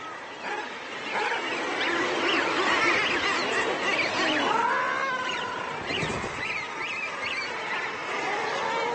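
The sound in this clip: A dense chorus of guillemots calling at a nesting colony on steep sea cliffs: harsh, growling, wavering cries overlap continuously and stay loud throughout, with no talk.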